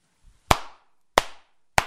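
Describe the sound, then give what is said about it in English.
Three sharp palm-in-palm hand claps, loud and alone, each a crisp smack with a short decay into silence, spaced a little over half a second apart. “I think on that correct clap, the palm in palm clap, I think you're getting both skin contact and air”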